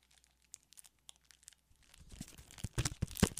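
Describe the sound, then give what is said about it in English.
Packs of cards being torn open, starting with a few sparse faint crinkles and clicks, then building into dense, louder crinkling and ripping of the wrappers for the last couple of seconds, with no talk. “Let's open up our packs of cards here.”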